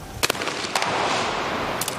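Shotgun shots ring out at a mixed team trap shooting event: a few sharp, loud cracks, with a quick pair near the start, another single blast, then a further pair near the end, all over a steady background noise.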